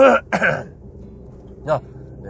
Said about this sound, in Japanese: 咳払い、申し訳ございません。